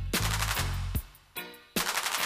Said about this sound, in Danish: jeg lægger altså an. Sigter omhyggeligt på halsen af den høje høvding og skyder.